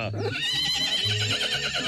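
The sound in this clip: A mare on a farm neighs in a loud, wavering whinny that carries high, trembling harmonics through the whole moment.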